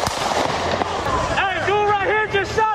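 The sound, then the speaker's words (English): Rifle gunshots during a street protest: a few sharp cracks ring out, followed by raised voices shouting under the noise. “He fired his rifle, and a second man was killed.”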